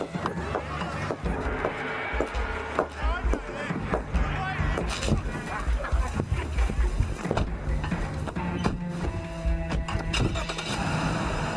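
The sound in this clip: A car engine runs and revs through a steady, noisy rumble with many clicks and knocks, while people talk over it.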